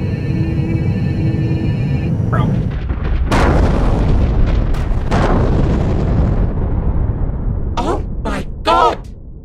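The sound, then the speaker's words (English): A spaceship explodes just after takeoff: heavy booms and sharp crackling bursts ride over a continuous loud rumbling roar, with a few brief chattering voices near the end. “That our ship would just explode after it took off.”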